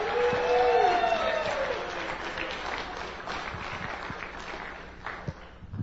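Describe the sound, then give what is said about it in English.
An audience at a morning apologetics session applauds to welcome a speaker to the stage. The clapping is dense and sustained, strongest at the start, then gradually thins and softens. “But, why don't we just show him a little bit of love? I don't know that he gets a lot of applauses. Let's welcome him to the stage here this morning.”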